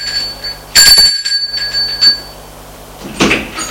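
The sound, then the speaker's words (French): A doorbell at a flat rings with a bright metallic chime, followed by a few softer knocks and clunks and a final short burst of noise. “Il sonne chez Julien.”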